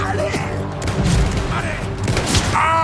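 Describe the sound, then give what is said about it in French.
Gunfire and deep booms hit soldiers in a foggy trench, with loud rumbling blasts and bursts of shooting while voices speak over the battle. “Comment ils peuvent nous tirer dessus s'ils nous voient pas? Justement, ils savent pas où ils tirent.”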